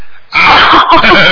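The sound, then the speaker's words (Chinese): A voice imitates a crow's cawing with a loud, harsh, throaty 'ah' sound that breaks briefly in the middle into two back-to-back caws. “天天在家里跟着他爸爸妈妈学乌鸦叫，因为他天天听到乌鸦叫啊啊。”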